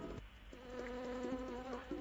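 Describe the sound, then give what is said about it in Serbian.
A buzzing-bees sound effect marks the end of the answer time in a quiz show, a faint, steady insect drone with a layered hum that wobbles slightly in pitch, with no talk over it. “Pčelice su nam već istekle, odzujale.”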